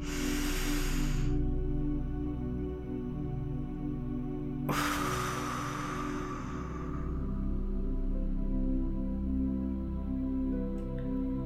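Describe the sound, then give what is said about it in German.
Deep breathing: two long, airy, hissing breaths separated by a pause of a few seconds, over a steady low tonal background. “Schließe deine Augen und nimm noch ein paar weitere tiefe Atemzüge.”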